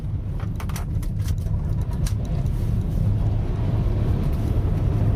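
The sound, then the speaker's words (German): Steady low engine rumble of a car driving toward a cocoa plantation near a village, loud and continuous throughout with no voices. “Ich fahre zu einer Kakaoplantage in der Nähe des Millennium-Dorfes.”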